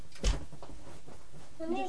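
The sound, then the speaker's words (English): An underwear drawer opens or closes with a single short wooden knock, followed by faint soft rustling in an otherwise quiet space. “What's that? That's your drawer. That's your underwear drawer.”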